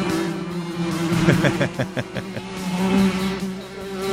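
A bee buzzes around inside a radio studio, giving a steady, fairly loud droning hum that holds throughout with a few brief pulsing flutters in the middle and no voices.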